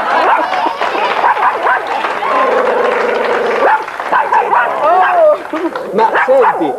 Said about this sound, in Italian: Chi è quello? Guarda, è il cane di Raffaella. Prendi cane.